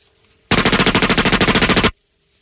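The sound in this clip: Automatic gunfire sound effect: a single loud burst of rapid shots in a tight, even rhythm lasting under a second and a half, breaking out of near silence and stopping abruptly.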